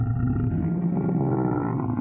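Lions roar in the lions' den as a story sound effect, a deep, rumbling growl that stays low and continuous for about two seconds with no talk.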